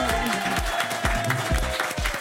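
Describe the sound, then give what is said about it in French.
An audience ovation for actress Catherine Jacob at a stage show: dense clapping over a sustained tone, with heavy low thumps recurring in a steady beat. “Une ovation pour Catherine Jacob.”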